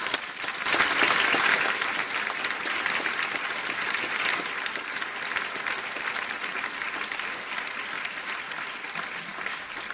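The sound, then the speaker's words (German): Audience applause at a Memmingen gathering of the regional association of Aktion Lebensrecht für alle: loud, dense, sustained clapping that peaks early and stays steady for the full ten seconds, with no voices rising above it. “Und ich bitte Sie einfach für diese Menschen, die hier so viel geleistet haben, um einen nochmal dicken Applaus.”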